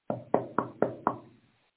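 Knocking on a door: five firm knocks in an even rhythm, each with a short ringing decay that fades out, with no voices.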